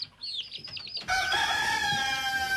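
A rooster crows after a run of short, warbling chirps from fowl. The crow is a loud, sustained, harmonic call that holds for more than a second and keeps a fairly level pitch.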